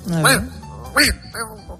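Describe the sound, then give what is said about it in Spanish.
A human voice imitates the bark of a Yorkshire terrier with three short, yappy, nasal bursts that bend up and down in pitch. The first two are louder and the last is a softer yip. “Ahí me hacen el ladrido de Yorkshire.”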